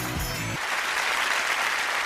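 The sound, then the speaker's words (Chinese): Steady applause from an audience thanking an elderly honoree at a tribute event about restoring the Great Wall. Dense, even clapping fills the whole clip at a constant, moderate level, and a brief low musical tone fades out at the start. “再次掌声感谢程老”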